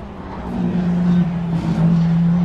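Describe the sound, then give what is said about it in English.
Petrol-engined Audi race cars pass by with a loud, steady engine drone and a sustained low tone that swells slightly in level. “And there they go, the Audis.”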